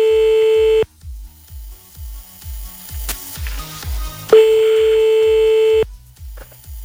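A steady, high telephone line tone from a call to a broken phone line sounds twice, each time as a long unbroken note with a gap between. A rhythmic low pulse continues underneath throughout.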